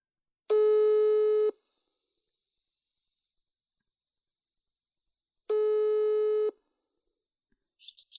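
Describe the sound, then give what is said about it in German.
A German telephone ringback tone sounds while a call is placed: two steady, buzzing beeps about a second long, separated by several seconds of silence. “Ja, ich rufe Laura an.”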